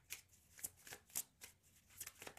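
Tarot cards being shuffled and drawn from a deck: a few soft, quick brushing swipes and flicks, quiet and without talk.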